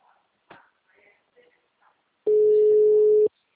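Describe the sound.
A single steady telephone call tone sounds for about a second while a call is being placed. It is mid-pitched and loud, and a few faint clicks and rustles come before it.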